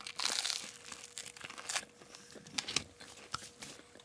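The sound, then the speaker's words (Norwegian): Crunchy crackling bites of toast made with a lighter bread and filled with salami, a run of many sharp crisp crunches and crinkles at a soft level, with no talk over them. “Det er også salami inni her, så dette er en kjøttvennlig toast, da. Knikk opp her. Mm. ASMR. Uh, ok. ASMR. Mm. Da smaker vi på Ingvild sin.”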